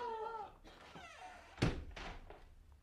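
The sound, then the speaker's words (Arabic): A door being closed: one heavy, low thunk midway through, with people talking before it and softer sounds trailing after. “واغلق الباب مرجان”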